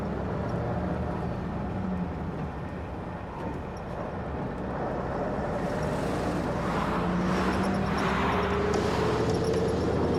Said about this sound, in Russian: Водитель, можем ехать! Автобус поехал.